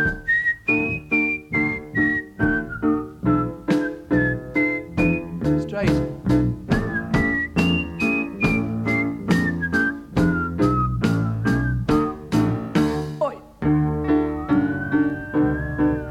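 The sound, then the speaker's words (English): A person whistles a clear, melodic tune during a song performance, the pitch gliding up and down in phrases over a steady, pulsing musical accompaniment, loud and sustained throughout. “And the whistling goes. Now listen, goes.”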